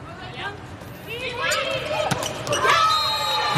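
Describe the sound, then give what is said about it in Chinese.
A single sharp hit of a volleyball serve in a women's international match between the Thai and Serbian teams, a brief crack standing out over steady crowd hubbub and voices. “现在泰国队和塞尔维亚队的比赛，主裁已经吹响了哨声，泰国队来率先发球。”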